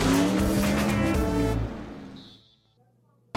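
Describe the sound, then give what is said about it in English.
Engines roar as a field of 43 NASCAR Winston Cup race cars rolls on pace laps at Martinsville Speedway. The dense, loud rumble fades steadily to near silence within about two and a half seconds. “Field of 43 NASCAR Winston Cup machines are rolling here, beginning a first of several pace laps at the Martinsville Speedway”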